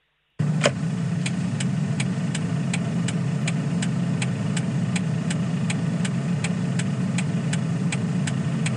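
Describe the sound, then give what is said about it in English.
A car's turn indicator ticks in a fast, perfectly even rhythm, with many sharp clicks running over the low, steady hum of an idling engine. “if you don't know what that sound is, it's a car indicator.”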